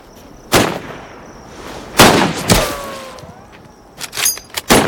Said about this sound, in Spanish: ¿Qué, no ves el blanco? Mi hijo de 6 años dispararía mejor que tú. ¡Otra vez!